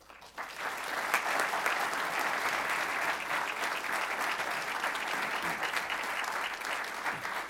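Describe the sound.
An audience applauds to welcome a speaker to a talk on Prohibition: dense, steady clapping that holds at an even level through the whole clip with no voices over it.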